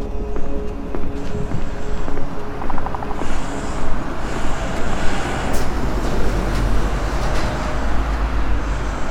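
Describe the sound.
Heavy road traffic at a roundabout beside a footbridge, a continuous dense roar of passing vehicles with a deep rumble and a few higher engine whines throughout.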